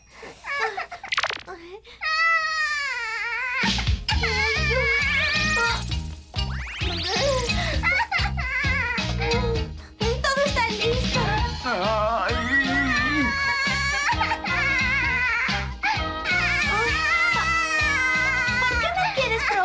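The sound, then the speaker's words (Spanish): A baby wails and sobs in an animated series, the crying mixed with music and other voices speaking. “¿Qué pasa? ¿Por qué llora? Oye, tal vez tenga hambre, ¿no crees?”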